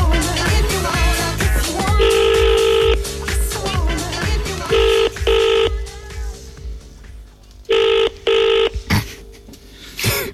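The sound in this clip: A telephone rings with a steady buzzing tone: one long ring, then two pairs of short double rings separated by pauses, with music underneath at first.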